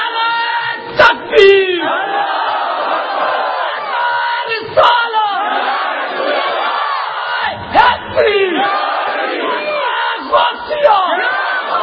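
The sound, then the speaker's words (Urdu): A crowd chants a religious slogan praising God and the Prophet in response: loud, massed voices answering in unison, recurring as several forceful bursts with sustained shouting between them. “کسی ایمان کی بات سے خوش ہو کر اللہ تعالیٰ اور اس کے رسول کریم صلی اللہ علیہ وسلم کا نام آپ بلند کرتے ہیں جب جب یہ نعرہ لگے پتا چلے مسلمان بیٹھے ہوئے ہیں”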